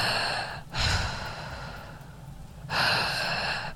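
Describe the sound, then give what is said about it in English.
A voice imitating breathing heard through a faulty home intercom: a steady airy hiss with two louder, drawn-out breaths standing out from it. “Like, we would hear breathing, like,”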